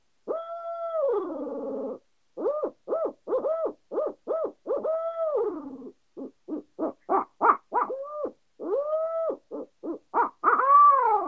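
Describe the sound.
An owl hooter call, used while turkey hunting, imitates an owl's hoot: many harmonic hooting notes. A few long drawn notes give way to quick choppy bursts, and the call grows louder toward the end, with no talk.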